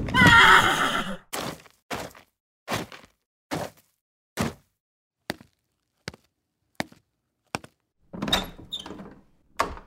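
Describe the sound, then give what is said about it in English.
A horse-drawn spring wagon pulls up in front of a small-town hotel. A loud horse whinny opens, followed by a long series of evenly spaced hoof clops with silence between them, then a heavier clatter near the end. “A few curious eyes noted the progress of the spring wagon driven by the young doctor as he came to a stop in front of the town's only hotel.”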